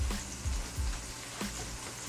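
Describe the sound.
Chorizo sizzling in a buttered frying pan, a fairly soft, steady crackling hiss with a few sharper pops scattered through it.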